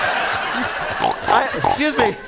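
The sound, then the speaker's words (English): Pig crying and oinking, a sound effect of an emotional support pig: loud, wavering nasal squeals and grunts that rise and fall in pitch, several calls in quick succession. “Somewhere backstage, Peter's emotional support pig is crying.”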